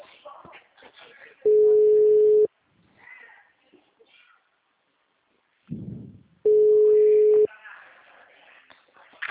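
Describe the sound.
A ringback tone from an unanswered phone call: two steady, mid-pitched one-second tones separated by a long pause, with faint indistinct voices and line noise in between.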